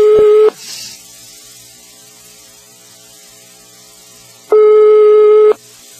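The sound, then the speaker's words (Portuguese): A telephone ringing tone sounds on the line: two steady mid-pitched beeps, a short one at the start and a longer one about four seconds later, with quiet line hiss between them. “Tá chamando...”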